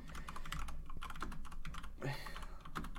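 Typing on a computer keyboard: faint, rapid, irregular key clicks running steadily throughout.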